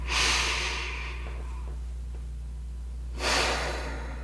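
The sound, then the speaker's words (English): Two deep breaths in a calm mindfulness moment, each a broad airy whoosh, the first at the start and the second after a long quiet pause, over a steady low hum. “I'd like to invite you to take a few deep breaths.”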